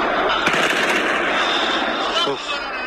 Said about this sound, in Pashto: په ټولنیزو رسنیو د خبرې سوي ویډیو کې ښکاري چې شاوخوا لاس کسان د بیلابیلو اړخونو د بودا په مجسمو د کلاشینکوف ډزې کوي.